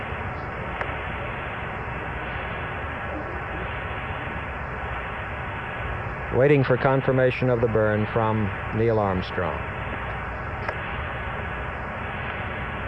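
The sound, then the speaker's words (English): Steady hiss of radio static from the Apollo 11 spacecraft signal returning to Earth, continuous throughout, with a band-limited voice talking through it midway. “The noise you hear is the sound of the radio signal coming back to Earth from the spacecraft.”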